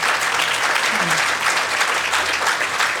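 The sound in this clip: Audience applause, a steady, dense patter of many hands clapping at an even loudness from start to finish.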